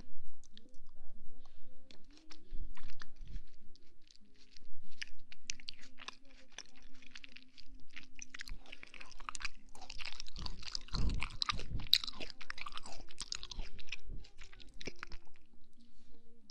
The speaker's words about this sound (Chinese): 用水果塞满你的嘴，惩罚你！